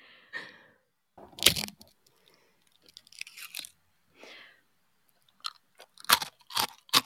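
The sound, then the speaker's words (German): Chewing cheese, with irregular crunchy bites and wet mouth sounds separated by short silent pauses, clustering more densely toward the end, with no talking. “Oh, hier gibt es noch gratis Essgeräusche dazu.”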